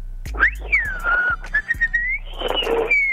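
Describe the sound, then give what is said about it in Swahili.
A person whistles a loud, sliding melody that rises and falls in pitch, alone over a low steady hum. “Hebu tupate mluzi kwanza mzee.”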